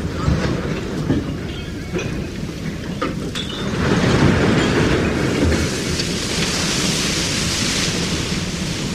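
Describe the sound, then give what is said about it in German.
Heavy iron balls on a trawler's fishing net rumble and clatter down the sloped stern ramp into the sea, a loud, continuous grinding roar with scattered metallic knocks throughout. “Zum ersten Mal rutscht das Netz ins Meer, poltern die schweren Eisenkugeln die schräge Slippe am Heck hinab, tauchen die eisenbewehrten Scherbretter hinunter, spulen die zwei 11 cm dicken Stahlseile ab,”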